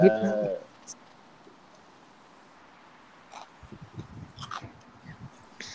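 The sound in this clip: Someone chews food with faint, irregular crunching and smacking bursts in the latter half, after a brief voice at the start and a stretch of near quiet.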